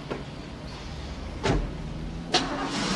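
A car engine runs steadily as the car starts and pulls out onto a quiet road to drive off, with a faint continuous rumble broken by two dull thuds.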